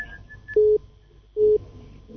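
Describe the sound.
A telephone tone from a disconnected caller's line: two short, steady, low-pitched beeps of equal length, evenly spaced with a pause between, over faint background hiss.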